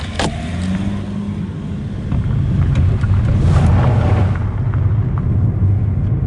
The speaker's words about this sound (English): We wind our way out of the shed and back towards town. A short 10-minute drive, but one that takes us through Gore's green farmlands, down the highway and through the small but lively town.